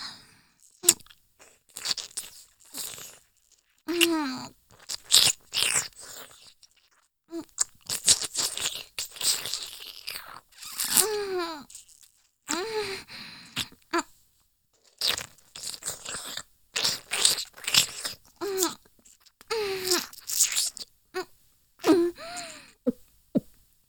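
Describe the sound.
Crunchy eating, with loud biting and chewing in many irregular bursts separated by short pauses throughout.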